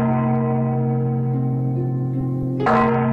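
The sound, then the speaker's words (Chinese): A large temple bell rings inside a busy temple. A deep, steady, resonant hum carries through, and a fresh strike adds a brighter clang near the end. “只听见寺内的大钟响了10声”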